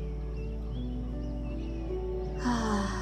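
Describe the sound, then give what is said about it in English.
A deep inhale during guided root chakra meditation breathing: a soft, airy rush of breath swells in at the end over a steady low drone. “On the next inhale, inhaling up into your root chakra.”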